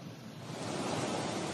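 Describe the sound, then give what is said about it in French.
Floodwater rushing through the city streets of a Libyan town during a deadly deluge, with cars disappearing under the rising water: a steady, broad roar of moving water that builds slightly, with no voices. “Dans le centre, les voitures disparaissent avec l'impressionnante montée des eaux.”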